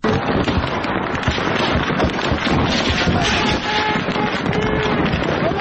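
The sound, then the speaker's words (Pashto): Gunfire from armed sectarian clashes in Kurram: many sharp, overlapping cracks and bangs form a dense, loud, continuous barrage over a steady roaring, wind-buffeted background. “د ډزو دا اوازونه په کورما کې د شیاګانو او سنیانو ترمنځ له 5 ورځو د خښ شوی جنگ دی.”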